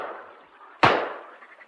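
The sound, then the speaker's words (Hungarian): A double-barrelled gun is fired, and one sharp, loud bang cuts through a steady low hiss, then fades away over the next moment. “Kilövöm mind a két csövét a puskámnak.”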